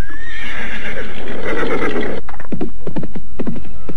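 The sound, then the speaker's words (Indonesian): Horses reined to a stop: a loud, high whinny rings out first, then a burst of hoofbeats clopping in an uneven rhythm. “Lihatlah itu, mereka menghentikan kudanya.”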